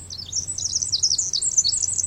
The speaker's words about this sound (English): Like the ones we're hearing, they might be sparrows, might be wrens, or something altogether different.